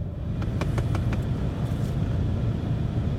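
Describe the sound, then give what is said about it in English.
Inside a parked car with the air conditioning running: a steady low rumble and a broad airy whoosh hold at an even level throughout, with faint brief ticks early on and no talk. “I hope there's not too much background interference. I got my AC going. I'm in my car doing this.”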